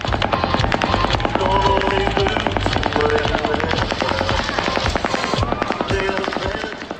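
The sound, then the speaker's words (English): Fully automatic weapon fire from an assault-style rifle during the Las Vegas shooting: loud, rapid bursts of shots crackle almost without a break for seven seconds. “Well, I immediately thought it was an assault weapon. It's certainly a fully automatic weapon.”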